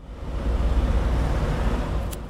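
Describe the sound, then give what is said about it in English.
Busy street traffic rumbles steadily on a hot summer day in Clerkenwell, central London, beside a tall building. A dense, low, even drone of passing vehicles continues throughout, with a few faint high ticks near the end. “I'm in central London, Clerkenwell to be specific. It's a hot summer's day, there's busy traffic, and I'm standing by a tall building with a heavy metallic door.”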